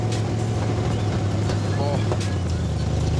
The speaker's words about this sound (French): Le bruit est excellent. Vous avez travaillé les échappements en plus pour avoir un son pareil.